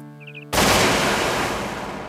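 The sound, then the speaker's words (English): A shotgun blast fired at an anti-Obamacare lawsuit document in a West Virginia political ad for Senator Joe Manchin: a brief tonal intro is cut off by one sudden loud blast whose rough, noisy roar lingers and slowly fades. “The new ad shows Joe Manchin, a Democratic senator representing West Virginia, taking a shotgun to an anti-Obamacare lawsuit.”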